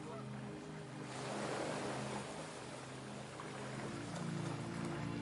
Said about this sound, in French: de plus en plus apaisé par le rythme séduisant de ce flux, de cette mer qui va et qui vient.